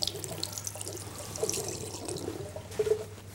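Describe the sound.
Water running from a washbasin tap over a hand during hand washing: a steady, faint hiss of flowing water with a few soft splashes and drips, heard alone.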